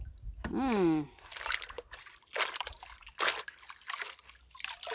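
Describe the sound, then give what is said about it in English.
Water sloshing and splashing as miner's moss is washed in a bucket: a few irregular splashy bursts separated by quieter gaps, with a short voice near the start. “So now you are washing the miner's moss in the bucket.”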